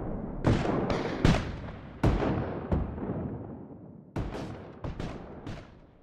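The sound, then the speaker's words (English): Artillery fire and rifle shots ring out in a Civil War battle: a rapid, irregular series of loud, sharp booms and cracks, each trailing off in a rumbling decay, with no voices. “Artillery rings, rifles crack, and men die in hand-to-hand combat as battle rages through the next day.”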